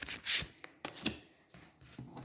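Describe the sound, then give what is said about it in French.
Tarot cards are handled and covered, making faint, soft rustles and light taps in a few short bursts. “Je recouvre les cartes. J'y suis presque, un petit peu de patience.”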